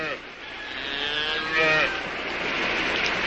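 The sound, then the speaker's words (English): A Jersey cow mooing once, a faint drawn-out low call partway through, set against a quiet steady hiss. “Been a long time since I've seen a Jersey cow.”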